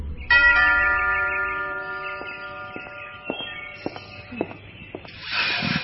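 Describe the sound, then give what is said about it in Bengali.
A doorbell is pressed and gives one bright chime that rings out and slowly fades, followed by a few soft clicks and a short burst of hiss at the end. “লাস্টিক উঠে গিয়ে আবার calling bell টিপল।”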